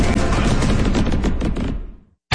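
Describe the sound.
Fireworks burst in a dense, loud run of rapid crackling and popping, sold by a discount fireworks store for America's 250th birthday celebration; the barrage thins and fades into silence near the end before another sound cuts in abruptly.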